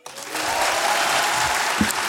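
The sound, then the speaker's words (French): Dense audience applause at a live show starts abruptly, then holds loud and steady for about two seconds as a thick wash of many hands. “Oui, est-ce qu'il y en a par applaudissement qui étaient là quand on a fait une tournée?”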